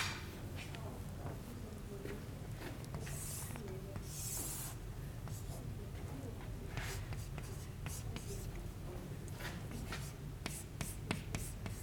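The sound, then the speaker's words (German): Handwriting with a pen during a lecture on analog low-pass filters, many short scratchy strokes and light taps in an irregular rhythm, fairly quiet over a soft steady hiss. “Also ich schreibe jetzt hier mal H von S, da wir uns im Analogen befinden.”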